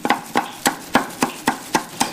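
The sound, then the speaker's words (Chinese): Crab meat being minced: eight sharp, evenly spaced chopping strikes in a steady rhythm, each a crisp knock that fades quickly, with no talk. “剔出蟹肉，将其剁碎，”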